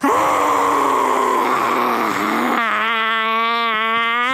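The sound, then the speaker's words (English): A forceful, wild primal breath exhaled with full voice: a loud, breathy rushing roar that turns into a sustained, steady voiced wail for the last part, heard alone without speech. “give me your most wild, radical, authentic, primal Kali breath yet”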